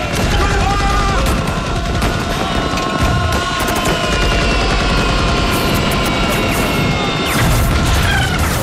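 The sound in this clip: Machine gun fire during an infantry assault in battle, with dense, continuous loud bursts mixed with crashing and booming impacts that keep up without a break.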